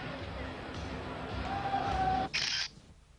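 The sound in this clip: A camera shutter fires in a quick burst of crisp clicks during photos at a championship celebration, briefly cutting through a steady murmur of crowd noise.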